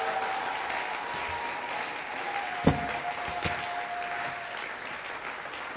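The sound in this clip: Steady applause from a church audience during a French-language service. It is a dense, even clatter of clapping throughout, with two brief sharper peaks near the middle and a faint sustained tone beneath it.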